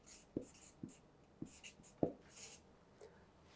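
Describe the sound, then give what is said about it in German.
Faint scratchy strokes of writing on a board during a German-language sermon, a few short separated scrapes in a loose rhythm over quiet room hiss, with no talking. “schaffe es 2S, keine Ahnung, schreibe schon lange nicht mehr Deutsch, ich mache einmal 2S. Wenn das falsch ist, bitte verzeiht mir.”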